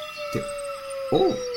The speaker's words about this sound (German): welches Tier war das, liebe Kinder? Eine Banane. Richtig, ein Wolf.